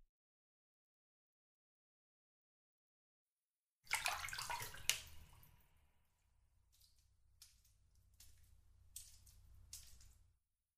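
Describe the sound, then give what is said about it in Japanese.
Hot water fills a bathtub, beginning after a few seconds of silence with a burst of splashing and gushing, then settling into a quieter, steady run of water with occasional louder splashes. “お湯が入りましたよ”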